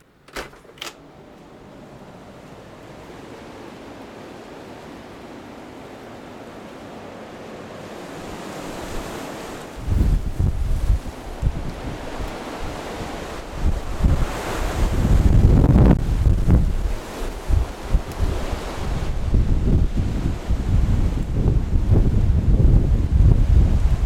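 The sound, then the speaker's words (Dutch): Storm wind in the east of the country, recorded through a windscreen on a handheld recorder. It starts as a low, steady rush and after about ten seconds swells into loud, buffeting gusts that rumble and thump against the microphone. “deze storm heeft nu ook het oosten van het land bereikt”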